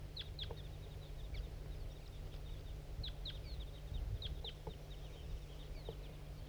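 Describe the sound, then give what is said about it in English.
Sharp, chipping flight calls from a big flock of crossbills flying over: many short high notes in loose bursts, faint above a steady low rumble. “There goes another one. Big flock of crossbills just flew over.”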